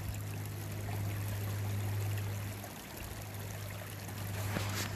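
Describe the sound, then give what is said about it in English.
A stream flowing during a January hike at Fair Hill: a steady, continuous rush of water that holds an even level throughout, with no voices. “You can hear a stream in the background.”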